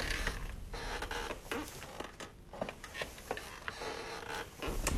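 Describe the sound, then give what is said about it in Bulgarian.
Creaking of a rocking chair among antique furniture: many irregular, scratchy wooden creaks follow one another at a moderate level, with no voices. “Ого, люлещце. Стол.”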